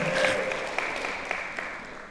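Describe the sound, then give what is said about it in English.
Audience applause follows a Hulk Hogan impression. The clapping is steady and fairly soft, thinning slightly toward the end, with only faint traces of voice. “All my life, I just dreamed to be clapped for doing a Hulk Hogan impression.”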